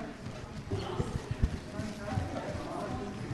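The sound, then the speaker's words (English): Footsteps of 45 people running barefoot in circles in a church auditorium in Cambridge, Massachusetts: many soft, dull thuds in a continuous rapid patter, under a voice speaking. “In a church auditorium in Cambridge, Massachusetts, 45 people run in circles, barefoot.”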